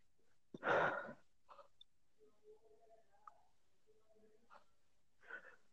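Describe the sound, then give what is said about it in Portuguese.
People breathing in and out during a short relaxation exercise: one loud, airy breath, then softer breaths, with quiet voices murmuring in between. “Dá respira então, três vezes.”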